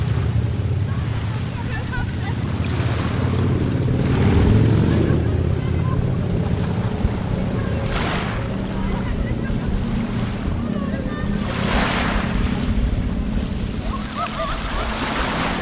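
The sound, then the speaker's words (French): Waves rise and fall on a gravel beach at Cassis with a continuous loud rush of water, broader surges as the surf washes in and out, and wind noise throughout. “La vague qui monte et qui descend sur les graviers de Cassis. Un bruit qui m'est cher.”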